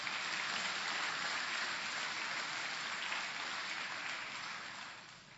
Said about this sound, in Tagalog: Hallelujah. Pwede pong palakpakan natin ang Panginoon?